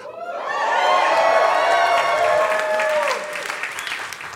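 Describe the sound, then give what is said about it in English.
A live audience cheers, whoops and applauds together, loud voices and clapping building quickly, holding strong, then dropping back to softer clapping near the end. “if you're new to the show, every two sentences, everyone needs to cheer.”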